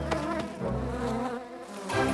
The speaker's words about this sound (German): Aber die Wespen haben sie gesehen und kommen angeflogen, um sich die beiden Bienen zu schnappen.